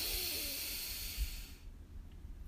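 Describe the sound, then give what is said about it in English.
A deep breath is drawn in, expanding the belly, during a guided breathing exercise. It is a soft, airy hiss lasting about a second and a half, then it fades into near silence. “So deep breath in, expanding your belly.”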